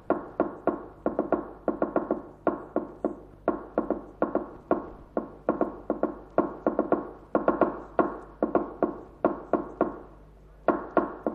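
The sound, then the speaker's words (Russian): Rapid clicky taps of a fork struck on a table in imitation of a telegraph key. Many sharp knocks come in irregular bursts separated by short pauses, steady and fairly loud, with no voices. “Дядь стучит вилкой по столу, подражая телеграфному станку.”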